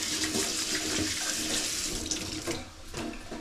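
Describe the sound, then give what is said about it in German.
Water runs from a kitchen tap as hands are washed while cooking potato noodles. It makes a steady, fairly loud rushing stream with small splashy shifts throughout and no voices. “Gut, dann kurz Hände waschen.”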